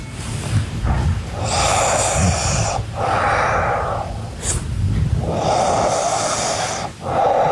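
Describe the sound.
A sleeping person breathing heavily, with loud snorting, rasping inhales and long hoarse exhales that repeat in a steady slow cycle, separated by brief quiet gaps.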